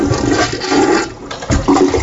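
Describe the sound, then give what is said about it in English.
A toilet flush used as a sound effect: a brief, loud rush of gurgling water that dips briefly and then surges again before the end. “We will flush the songs down the toilet if enough people don't like them.”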